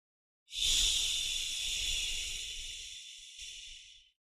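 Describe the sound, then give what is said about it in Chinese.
A slow exhalation carries a steady, airy hissing breath sound made through the mouth, breathed out evenly for several seconds and fading gently at the end. “呼的时候要发吸的音。 哎，就是缓慢的呼气。”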